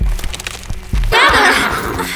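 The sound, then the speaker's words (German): Agitated horses neigh in a loud, wavering whinny that takes over the second half and stays strong to the end, after softer low-pitched sounds at the start. “Sie machen die Pferde ganz kirre.”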